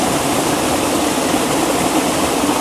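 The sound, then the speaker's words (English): A waterfall pours in a steady, dense rush of white noise, loud and unbroken. “The waterfall is totally obscured by this tree, so I'm going to move my position over here.”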